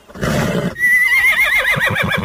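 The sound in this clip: A horse whinnies while being saddled and bridled: a loud, breathy blast gives way to a long, wavering high-pitched neigh that ripples downward and ends in low, throaty pulses.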